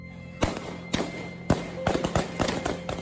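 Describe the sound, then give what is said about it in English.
Gunshots fired into the air at a women's street protest: three sharp, spaced cracks, then a quicker cluster of several more reports, loud and abrupt over a low background hum. “Shots are fired into the air.”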